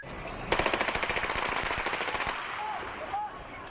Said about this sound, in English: After the shots were fired at the bus, the police stormed in.